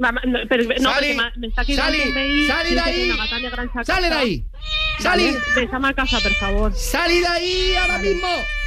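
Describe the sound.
A female cat meows over and over in a long run of loud, drawn-out, wavering cries with sliding pitch, one falling sharply low midway through.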